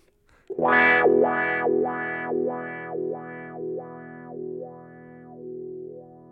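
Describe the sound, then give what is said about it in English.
A wah-wah pedal sweeps a distorted electric guitar note in a steady rocking rhythm. A single sustained tone repeatedly opens bright and closes dark, many times over, slowly fading. “as you push it out, it opens up the frequencies and suddenly starts allowing more high frequencies to come through. And you can rock it forward and back and get a wah-wah kind of sound.”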